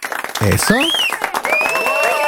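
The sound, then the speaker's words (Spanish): A studio audience of hired clappers applauding on cue, dense clapping under a presenter's voice and whoops, starting thin and then filling out loud and steady. “Ya tenemos a nuestros aplaudidores sindicalizados aquí listos. A ver. Alto todos, a ver, apláudanle.”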